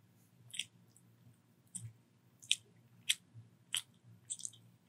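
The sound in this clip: Biting and chewing into a donut filled with mayonnaise: several short, soft, wet mouth clicks and squishes in an uneven rhythm, faint and heard alone.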